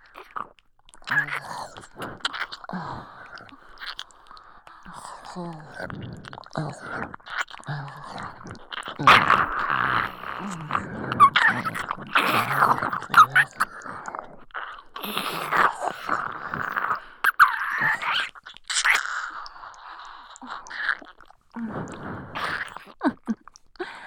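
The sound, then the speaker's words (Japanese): Wet, smacking licking sounds run close and continuous, growing denser and more intense partway through, with many quick mouth clicks and soft slurps layered together. “もう少し激しめに舐めてみようか。”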